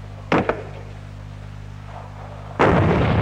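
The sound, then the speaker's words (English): An M40A1 106mm recoilless rifle fires. There are two heavy blasts over a steady low hum: a sharp first boom with a quick second crack just after it, then a later, longer roaring blast at the end. “The M40A1 106mm recoilless rifle.”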